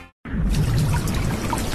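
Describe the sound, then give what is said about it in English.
Water leaking through a roof, a continuous splashing, pouring rush that begins abruptly after a brief silence and stays loud and steady throughout, with no voices. “That's not good. What? My roof is leaking.”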